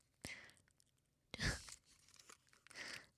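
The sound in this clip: Soft chewing of peeled chestnut kernels, with a few short, moist crunching bursts separated by brief pauses.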